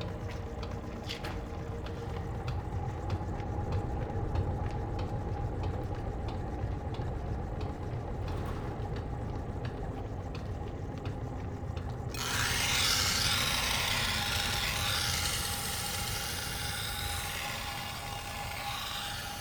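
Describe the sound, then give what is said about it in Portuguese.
Metal is ground on an emery wheel in Guarda, with a finer wheel used for finishing. A continuous, steady abrasive rasp carries throughout and turns brighter and more hissing partway through. “Como depois o acabamento ainda é num outro esmeril mais fino, que tem outro cantar.”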